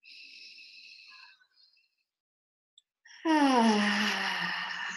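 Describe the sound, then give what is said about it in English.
Deep breaths taken together during a guided breathing exercise: a soft, airy inhale, a short pause, then a loud, drawn-out voiced exhale like a heavy sigh that holds to the end. “So let's just take a few deep breaths together. And one more.”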